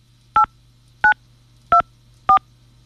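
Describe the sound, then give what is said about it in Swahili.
Telephone keypad tones as a password is entered: four short, evenly spaced two-tone beeps over a low, steady hum. “Please enter your password followed by the pound key.”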